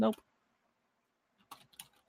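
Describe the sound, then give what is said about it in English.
Typing on a computer keyboard into a chat: a brief burst of speech gives way to silence, then a few quiet, separate keystroke clicks come in near the end. “Let me type them into a chat real quick so I can give you a proper shout out.”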